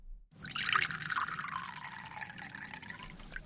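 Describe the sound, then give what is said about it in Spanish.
A waitress pours a drink into a glass and fills it to the brim: a steady splashing stream of liquid that runs for about three seconds, with no voices. “La camarera llenó generosamente la copa hasta el borde.”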